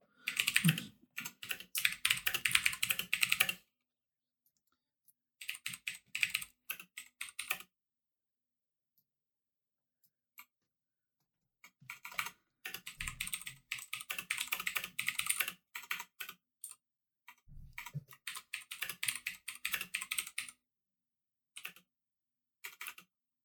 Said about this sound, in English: All right, let me just type this up to you.